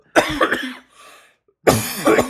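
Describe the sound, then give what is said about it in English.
Harsh, loud coughing comes in two bursts separated by a brief, quieter gap, with no talk over it. “It's just like all of a sudden I just start coughing.”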